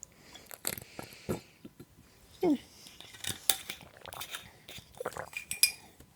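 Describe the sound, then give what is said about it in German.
Someone takes a sip of drink from a bottle: a few faint, scattered clinks, knocks and soft mouth sounds come irregularly as the bottle is handled. “ich muss noch mal einen Schluck trinken”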